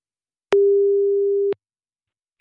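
A telephone tone sounds while a call is being placed: one steady, clean tone lasting about a second, surrounded by silence, with a faint click at the very end.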